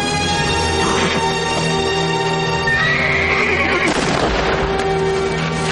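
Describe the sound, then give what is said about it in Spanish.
A wounded horse, hit by a bullet and lying on the ground in a Western film scene, whinnies loudly in long, strained, harmonic cries that carry on throughout, turning rougher and breathier partway through. “presentes se acercan hasta los dos fallecidos, mientras un caballo que ha sido alcanzado por una bala relincha tirado en el suelo.”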